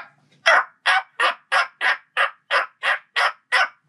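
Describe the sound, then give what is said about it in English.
A person's voice imitates a turkey slate call: ten clear, evenly spaced yelping notes in a steady rhythm, loud and alone. “he ran a slate call, and I was like, all right, I can do that. So I just listened to it, and it's like, okay, well, it sounds like this.”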